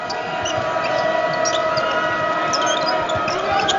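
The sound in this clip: A basketball bounces slowly and steadily on the court during a college game at Provo between the Cougars and the Pilots, the dull thumps sitting under a constant crowd roar.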